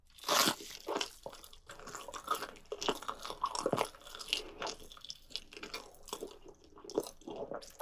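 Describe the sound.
Crunchy chicken thigh being bitten and chewed: a loud crunch near the start, then many irregular crunching and chewing bursts with some moist smacking, and no talking.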